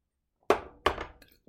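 Romanian shot glasses from Bucharest clack hard twice as they are handled, each hit leaving a brief ringing tail, and a fainter tap follows at the end.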